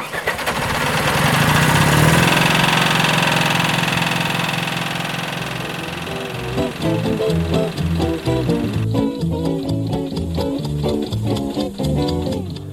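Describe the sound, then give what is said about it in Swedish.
A small grey Ferguson tractor engine idling, a steady rough roar that settles into regular, low, rhythmic chugging pulses, loud and alone without talk. “I Norge kallas den för gråtass och eh, i England kallas den för The Little Grey, Fergie.”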